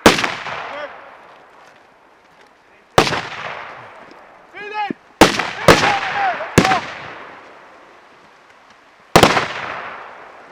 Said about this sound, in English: So that smell of gunpowder is in my nostrils. It really is something. There was a lot of ammunition fired there.